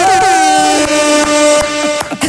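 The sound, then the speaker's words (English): An air horn sound effect blares in one long, loud, steady blast with a bright, buzzy, harmonic-rich tone that holds for about two seconds. “Do you have one of those air horns?”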